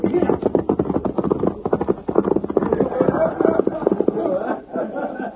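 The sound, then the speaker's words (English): Horse hooves clop in a quick, steady rhythm as a rider gallops away, a run of many sharp hoof strikes at an even, fairly loud level. “Hey, Sheriff. There goes young Bob Ryan now, riding away with the lead.”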